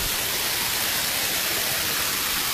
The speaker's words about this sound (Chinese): 大家应该可以听到这个瀑布的声音了。在瀑布跟前一站呢，水的这个温度以及风呢一吹，这块呢还是比较凉爽的。